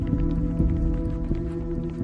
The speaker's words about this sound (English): Guns drawn, Carlito and his men hurry onto the empty floor.